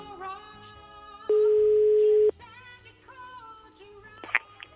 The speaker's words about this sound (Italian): Squilla il numero di Milioni